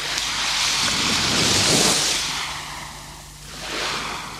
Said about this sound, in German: Die Brandung.